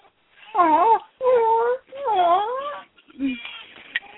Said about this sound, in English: Yes, she's very upset. She spit the pacifier out. Which she finds very distressing, that she spits it out and it doesn't immediately pop back in her mouth.